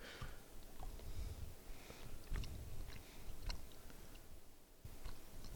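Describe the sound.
Chewing a pear-flavored jelly bean makes soft, moist mouth sounds with faint irregular clicks and squelches, quiet and continuous, with no talking.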